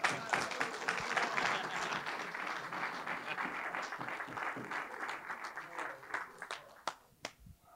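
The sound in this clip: Audience applause welcoming a guest speaker at a morning gathering: a dense, steady wash of clapping that thins in the final second into a few scattered, separate claps.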